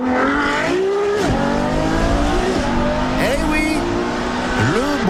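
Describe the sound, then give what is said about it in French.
A Ferrari sports car engine roars steadily and loudly, its pitch repeatedly dropping and climbing again as the revs change, with a sharp tyre-squeal edge. “Parce qu'une Ferrari, ça fait du bruit, c'est même à ça qu'on la reconnaît.”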